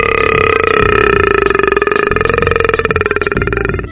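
A long, loud burp rumbles in one sustained voiced tone that pulses slightly and holds for nearly four seconds before fading a little at the end.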